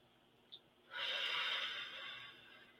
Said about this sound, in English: So let's take a deep breath and then we're going to let it out.